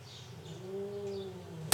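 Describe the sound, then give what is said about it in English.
Hungry cats yowling at each other: one long, low, moaning yowl that swells, rises slightly and falls again, cut off by a sharp click at the very end. “there's some hungry cats.”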